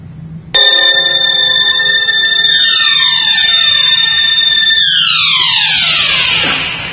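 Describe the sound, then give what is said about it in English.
An alarm clock starts suddenly with a loud, sustained, metallic ringing tone that holds for several seconds. Its pitch then slides downward in stages before it fades out. “Starts with an alarm clock.”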